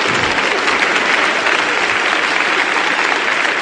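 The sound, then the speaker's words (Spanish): Sustained audience applause for a live performance, a loud, thick, unbroken roar of many hands clapping that holds steady throughout without dying down. “les agradezco mucho los aplausos”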